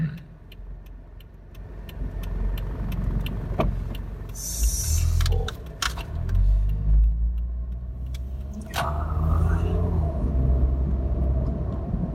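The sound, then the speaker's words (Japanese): Inside a car waiting to turn right, a low, steady engine rumble runs throughout under regular light clicking, with a few louder thumps and rustles along the way. “今右折をしたいがために後ろの車をめっちゃ待たせていて”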